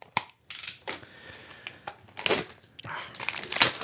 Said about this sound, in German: was hier jetzt gerade ausgepackt wird, das ist einfach langes D-Radio Wissen, grünes, vielleicht ein bisschen heller, Plastikkabelband.